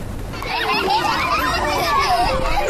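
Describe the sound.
Children playing during an outdoor exploration class at a kindergarten, splashing with water and building with blocks: a steady, lively babble of many young voices chattering and calling out together throughout.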